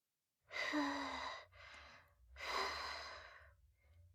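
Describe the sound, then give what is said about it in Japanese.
Someone blowing on hot food to cool it: a few soft, airy puffs of breath with pauses between them, faint and alone. “暑いから、ふうふうするね。”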